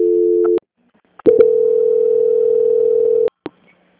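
A telephone line tone hums while a call is being transferred. A steady tone cuts off, a short pause follows with faint clicks, then a longer steady tone of about two seconds ends with a brief click.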